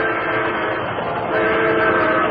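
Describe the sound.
A fast-approaching train sweeps toward a person bound to the gleaming rails, a loud, steady roar and rumble layered with sustained whistle-like tones that hold throughout.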